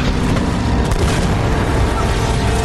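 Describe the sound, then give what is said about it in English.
Booming anti-aircraft fire explosions in a video game: a dense, continuous roar of blasts and bursts that stays loud throughout, with no let-up between hits. “Whoa! What the hell was that? An anti-aircraft fire?”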